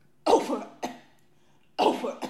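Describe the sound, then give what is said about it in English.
Coughing in two fits, each a harsh, loud burst followed quickly by a shorter, weaker cough, separated by about a second of quiet. “You need a Ricola or something? You need a cough drop?”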